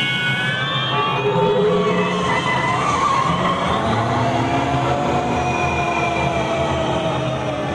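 Accelerating sound effect of a theme park ride vehicle: a loud, continuous roar with whining tones that climb in pitch as it speeds up, steady in volume throughout and without voices.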